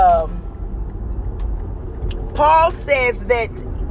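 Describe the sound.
Car interior while driving: a low, continuous road rumble fills the cabin, and a person speaks in short bursts over it in the second half.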